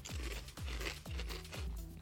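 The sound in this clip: A cumin barbecue potato chip being eaten, with four loud, evenly spaced crisp crunches as it is bitten and chewed; no talking.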